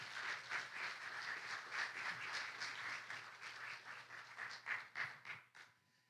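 A church audience applauds to welcome guests, producing a dense, steady patter of many hands clapping that holds for several seconds, then tapers and fades out near the end.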